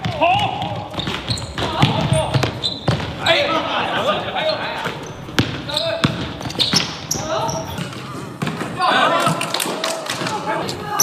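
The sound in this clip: Many thumps of a basketball bouncing during a game, a steady dribbling rhythm heard under a man talking.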